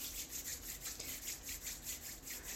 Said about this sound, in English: put a few drops in the palm of your right hand. Rub your hands together.